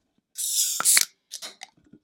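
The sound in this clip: A beer can is opened for a toast. A sharp crack and a pressurized hiss are followed by a few softer clicks and short bursts of fizz.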